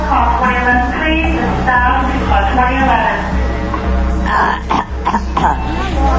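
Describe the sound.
Throat clearing to bring up a little phlegm, a rough, guttural rasping repeated several times alongside talking voices.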